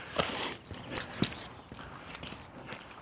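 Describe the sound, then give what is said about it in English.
Footsteps crunching across crusty ground in a street bike lane, a steady series of gritty scuffing steps with a few louder, sharper footfalls. “crusty, impossible crap to walk in. It's a bike lane. I'm gonna walk in it.”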